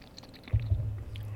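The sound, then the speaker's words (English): Someone gargles red wine at a blind tasting of California reds: a low bubbling rattle that starts abruptly and keeps going steadily, fairly faint. “Someone's gargling. Sorry for that. Someone's gargling.”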